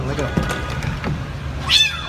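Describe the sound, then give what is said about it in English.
A cat gives one brief, high meow near the end, heard under people talking over a low background rumble. “Oh, poor cat. Sorry, little buddy.”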